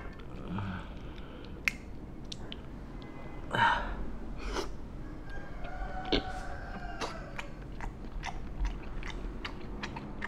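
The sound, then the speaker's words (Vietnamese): Biting and chewing of homemade jelly that had been left for two days, heard as scattered soft clicks and moist bites with one fuller burst near the middle. No one speaks. “Không biết giờ thạch ăn như thế nào đây. Cắt trước một mảng nhỏ đây để ăn xem thạch ngon không nhé.”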